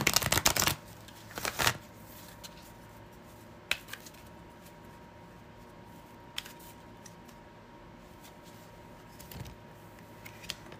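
Shuffling and drawing cards from a unicorn-themed deck: a dense riffling burst opens, followed by a second shorter shuffle and then a few soft, isolated card snaps and slides over a quiet background.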